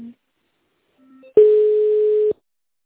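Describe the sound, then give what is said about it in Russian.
Telephone line tones while an office call is being transferred to another person: a brief low beep, a faint short tone, then a louder steady hum-like tone lasting about a second that cuts off abruptly. “Так, тогда давайте на Светлану Александровну, главный бухгалтер, переключу, переговорите.”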